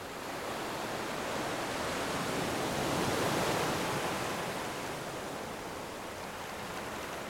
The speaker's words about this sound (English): I hope that you feel calm and relaxed as you continue to listen to the sounds of the waves.